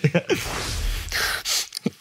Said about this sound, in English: That was a little creepy how hard I inhaled, but this soap right here, Dr. Squatch, smells fantastic.